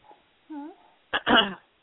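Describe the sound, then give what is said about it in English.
Breathing into a phone heard over a thin line: a faint puff, a short whiny tone, then two breathy rushes of air. “So are you breathing in the phone?”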